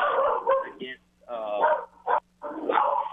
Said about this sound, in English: against Eastern Michigan as the guard dog goes off. Yes. the joys of working from home.